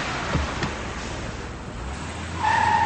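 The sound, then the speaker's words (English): A car pulls away, a low engine rumble that swells louder near the end, where a sharp high squeal cuts in; no talk. “She puts it down, starts her car, and drives away.”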